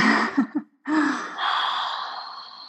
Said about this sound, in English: super simple, let's just take a really deep breath. Really deep breath.